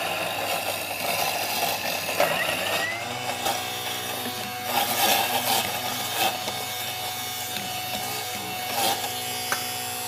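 A blender motor whirs steadily as it purées food very finely, a continuous buzzing whine with no talk over it.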